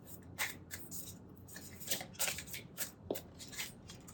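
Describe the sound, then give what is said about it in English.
Oracle cards are shuffled before one is drawn, giving soft, irregular riffling and rustling with a few sharper flicks and slaps, fairly quiet. “And of course, our last bit is we will draw a card for a deeper message for this transmission. So let's see what the cards want to tell us today.”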